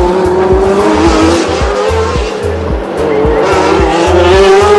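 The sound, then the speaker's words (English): Formula One race cars, including a Ferrari, roar loudly through a race, their high-pitched engines screaming continuously over a rhythmic low pulsing, with no break in the noise. “Lauda now crawling all over the back of Pironi's Ferrari. A little twitch there from Lauda.”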